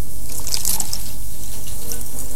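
Drinking water pouring from a tap, a brief splashy burst followed by a steady, soft trickle of running water, with no voices.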